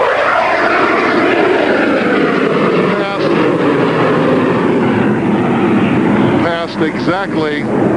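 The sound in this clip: Two aircraft fly past low beside a reviewing stand, one with its landing gear down and the other clean after a loop. A loud, steady engine roar fills the whole stretch, and a voice briefly cuts in near the end.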